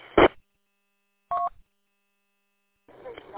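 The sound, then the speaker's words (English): Two short electronic keypad tones on a radio, the second a clean dual-pitched DTMF beep, separated by silence and followed by faint, noisy radio sound. “Hold on, I'm going to dial it up on my radio.”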